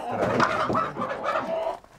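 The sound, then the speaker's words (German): Frantic clucking and squawking of panicked laying hens and a rooster being caught, a dense, agitated burst of bird cries that stays loud throughout and thins out at the end. “Die sind jetzt panisch verschrocken. Mach die Tür zu, sonst kommt die nächste. Alles klar, also sind sie doch schon wach. 4 Legehühner und 1 Hahn müssen mit.”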